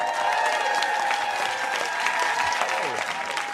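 An audience applauds a guest, a dense, steady clapping that stays loud and even throughout with some crowd noise mixed in.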